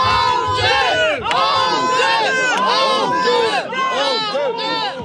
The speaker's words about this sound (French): des huées pour Sébastien Lecornu, certes d'un groupe de personnes, mais il les a entendus, le Premier ministre